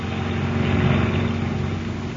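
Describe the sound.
A motor launch's boat engine runs with a steady, droning hum and a strong low rumble. The level stays even throughout, and no one speaks.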